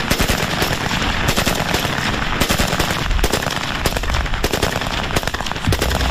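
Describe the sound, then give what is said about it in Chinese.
A new Type 56 submachine gun, stored unused for over fifty years, fires full-auto at a weapons test: loud, dense, continuous bursts of rapid shots with no real pause through the whole stretch. “这把崭新的五六式冲锋枪已在库房里沉睡了50多年，从未被使用过。这一天，武器测试人员会把它和五六式半自动步枪做个比较。”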